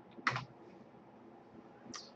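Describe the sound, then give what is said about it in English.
Faint clicks of typing on a computer keyboard: two short bursts of keystrokes separated by quiet hiss. “I might type something like closest.”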